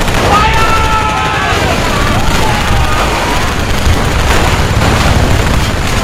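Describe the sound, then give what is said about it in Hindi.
Battle gunfire from light machine guns, rifles, mortars and grenades as Indian soldiers fire on advancing Chinese troops: a dense, unbroken barrage of shots and booms, loud throughout, with thin whining tones running over the din. “और जैसे ही चीनी सैनिक निकट आए, भारतीय सैनिकों ने उन पर light machine gun, rifles, mortar और ग्रेनेड से हमला कर दिया”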